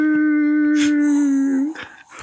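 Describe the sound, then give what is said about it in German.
A coyote howls in the distance, a steady, sustained tonal call held at one pitch before it drops and breaks off into short, fainter yips and rustles. “Und in der Ferne so ein Kojote.”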